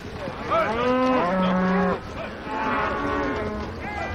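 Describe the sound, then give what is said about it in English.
Cattle lowing in a pen as a herd walks past: several loud, drawn-out moos that overlap one another, their pitch sliding up and down, with no talk. “In a pen, a parade of cattle walks by as Amos and Will watch”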